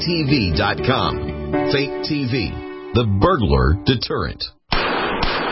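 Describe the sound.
A .44 Magnum gunshot striking a Trauma Max hybrid Kevlar bulletproof vest: one sharp, loud blast with a brief noisy tail, coming right after a stretch of a man talking.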